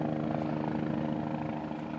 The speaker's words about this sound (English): It's probably a police helicopter looking for somebody. It's coming back this way, isn't it?